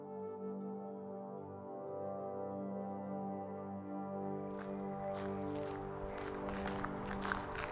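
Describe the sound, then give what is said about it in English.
Footsteps walking on a gravel walkway beside a river, faint crunching steps that start about halfway through under a steady, sustained musical drone. “And we begin to walk now together down the gravel walkway running alongside the river.”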